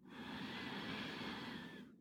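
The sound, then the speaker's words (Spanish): A slow, deep inhale during a guided breathing and meditation exercise comes as one faint, steady airy rush of about two seconds, heard alone before it cuts off. “en esta última vez inhala en cuatro.”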